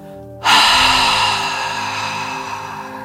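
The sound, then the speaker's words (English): A deep breath during a guided breathing exercise: one long, airy rush of breath that starts abruptly and slowly fades, over a soft, steady tonal background. “Breathe in, hold, and let it out.”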